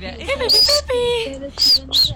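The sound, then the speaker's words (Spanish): Small bird chirping in a few short, high, bright whistled calls, mixed in with people talking. “¡Míralo! ¡Ay! Un pajarito.”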